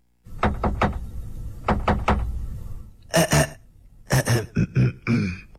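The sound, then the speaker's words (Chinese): Knocking by the big bad wolf on the goat family's door in a children's fairy tale: two quick sets of three firm raps, separated by a brief pause. “把土吃下去以后，他又去敲山羊家的门”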